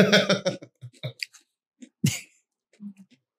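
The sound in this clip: Crunching and chewing of pizza-flavoured crisps: a brief burst of talk, then a few short, soft crisp bites and mouth clicks, with one sharper crunch in the middle.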